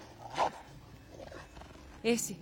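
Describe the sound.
A dog growling in a dubbed film scene, a low rough rumble with two louder snarling bursts near the start and end.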